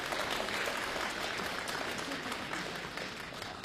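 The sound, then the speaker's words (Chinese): Audience applause welcoming a stand-up comic onto the stage at a comedy show: a fairly faint, continuous wash of many hands clapping that holds steady throughout, with no voices. “来，掌声鼓励。”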